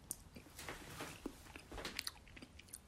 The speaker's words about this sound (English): I use lots of chickpea flour and rice flour. and I finally get it to sort of be in little chunks of noodles, and then I cooked it. Now I'm going to taste it.